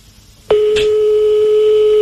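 A telephone call is placed: a click, then a steady, loud single-pitched phone tone that starts abruptly after a brief quiet moment and holds unchanged to the end.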